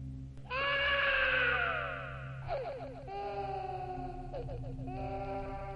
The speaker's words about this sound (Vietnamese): Ở bên tai, chợt truyền đến tiếng khóc của trẻ con.